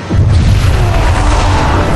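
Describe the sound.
Bombs explode and blow up a spaceship in a loud, deep, rumbling roar that starts abruptly and sustains as a dense wash of noise without breaking up into separate blasts.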